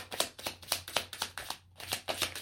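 Tarot cards shuffled by hand: a quiet series of quick, papery riffling bursts in a fairly steady rhythm, broken by one brief pause, with no talk.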